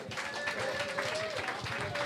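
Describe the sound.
Audience applause welcoming a new performer at a Celtic music gathering in Concord: a steady, fairly faint wash of clapping that holds throughout without a clear peak.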